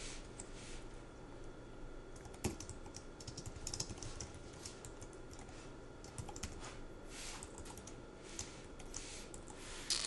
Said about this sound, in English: And let me just type here for a second, and then I'll explain what I'm doing.